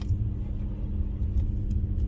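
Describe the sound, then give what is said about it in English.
A car's wheels spin in snow on a nasty, snowy road in Colorado Springs in February, giving a steady, heavy low engine rumble that stays level for about two seconds. “the wheels spinning in the snow”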